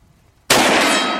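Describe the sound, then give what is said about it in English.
A gunshot hits a steel target: one sharp, loud metallic strike, then a bright ringing clang that holds and slowly fades. “Yeah, I love shooting steel. That's a nice round.”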